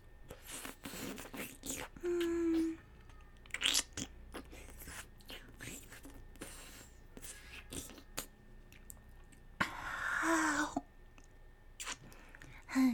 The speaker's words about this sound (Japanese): たくさん舐めてあげる。というか、舐めさせて。